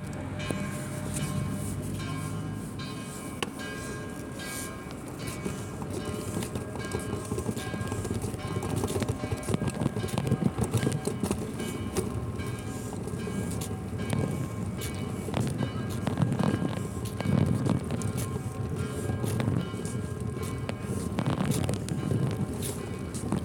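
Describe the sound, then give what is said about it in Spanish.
Ambience of the Murcia bus station: a continuous low rumble of engines and movement with scattered clattering knocks and thumps throughout, steady and moderately loud. “Nuestra compañera, la estación de autobuses de Murcia.”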